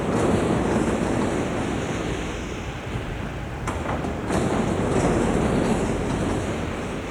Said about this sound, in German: An der Verladerampe herrscht Hochbetrieb. 3.500 Autos rollen hier in Spitzenzeiten vom Band und auf die wartenden Eisenbahnwaggons